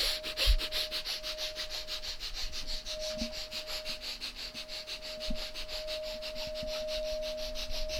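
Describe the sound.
Rapid, rhythmic breath-of-fire breathing during a breathing exercise: many quick, sharp, forceful breaths at a steady fast pace, a continuous stream of short airy pulses with no talking.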